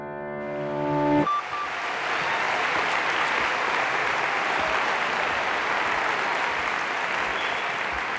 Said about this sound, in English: nu applåderar de ju ganska länge här